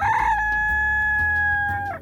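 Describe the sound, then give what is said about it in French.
A rooster crows once, a single loud, sustained cock-a-doodle-doo lasting about two seconds with a bright, strained pitch that breaks and drops off at the end. “Le coq chante à tue-tête, les poules caquettent, les poussins pépitent.”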